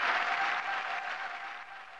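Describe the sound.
Crowd applause as a steady wash of clapping that holds throughout, easing slightly toward the end, with no voices standing out.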